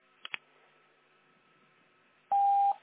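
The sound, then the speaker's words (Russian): Telephone ringback tone while a call tries to connect: two faint clicks, then a single steady, mid-pitched tone that sounds clearly for a moment before cutting off, with no voices. “Продолжается попытка дозвониться до абонента, который пока что не успел ответить на ваш вызов.”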